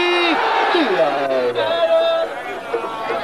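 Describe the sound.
A crowd at a fair for a shrine shouts the Nara-e-Haidari slogan. Massed voices raise drawn-out, falling cries over loud chatter.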